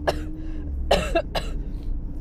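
Someone coughs harshly after choking while breathing. There are a few loud, rough bursts separated by short gaps, with a longer, throaty rasping cough in the middle.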